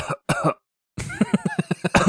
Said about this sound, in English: my guy starts coughing. I'm like, why is there skull and bones on my screen?